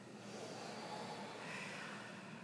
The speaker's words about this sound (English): Exhale all the air out.